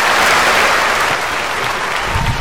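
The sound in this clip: Studio audience applauding: dense clapping from many hands, loud and continuous throughout, with no talk over it.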